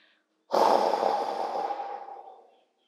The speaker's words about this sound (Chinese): 深深的吸气，再慢慢的吐气。